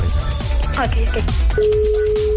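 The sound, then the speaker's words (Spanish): Telephone call being dialed: voices talk at first, then a steady ringing tone starts about two-thirds of the way through and holds unbroken to the end. “Ok, estoy marcando en este momento, ¿ok?”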